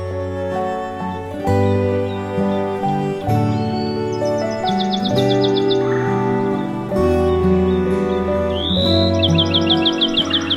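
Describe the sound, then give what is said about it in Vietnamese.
Songbirds sing and chirp in two quick, high trilled bursts over a steady, loud musical backing of sustained tones. “Các loài chim quý cất giọng hót líu lo, thánh thót, hát cho mỏm đá nghe những bài hát hay nhất của loài chim.”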